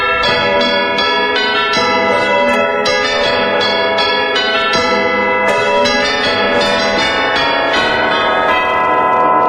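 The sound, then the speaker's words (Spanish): A village church bell rings continuously, its loud, overlapping metallic strikes forming a dense, ringing wash that never pauses, with no voices. “Tocar la campana de la iglesia del pueblo te lleva 5 minutos.”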